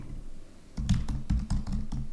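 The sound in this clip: Someone types comments on a computer keyboard, producing a quick, irregular run of many sharp keystroke clicks. The clicks begin partway through over a low, steady background hum.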